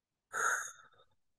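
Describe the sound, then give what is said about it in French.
A single long exhalation during a breathing exercise: a soft, breathy rush of air that starts firmly and slowly fades away over about a second, with no voice. “Pour ça, on commence par expirer complètement jusqu'au bout.”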